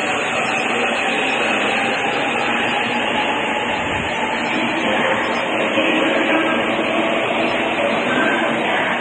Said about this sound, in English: Another train pulls away.